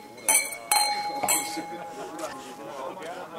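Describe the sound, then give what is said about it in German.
Glasses clinking in a toast with alcohol-free sparkling wine, celebrating a newly founded cooperative at a hotel: a few bright clinks with a lingering ring, under a murmur of voices. “Jetzt wird mit alkoholfreiem Sekt auf neue Genossenschaft angestoßen.”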